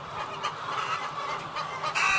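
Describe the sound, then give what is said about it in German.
Laying hens clucking in a poultry barn on a Swiss egg farm, a long aisle full of birds: dense, continuous flock chatter of many overlapping clucks, steady throughout. “wir sind jetzt hier mit im Stall drin. Ich schaue hier einen langen Gang für uns. Wahrscheinlich 100 Meter Länge, Gang voll Hennen.”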